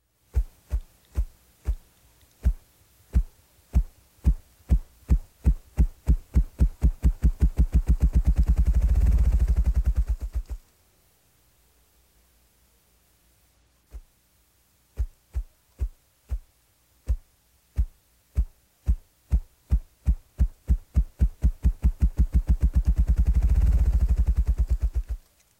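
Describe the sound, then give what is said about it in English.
A ruffed grouse drums by rapidly flapping its wings, producing deep, low thumps. Two bouts are separated by a long silence, and in each the beats start slow and widely spaced, then speed up into a rolling whirr. “his primary song is produced by rapidly flapping his wings. The air compressed between his wings and body creates a deep drumming sound. Here it is.”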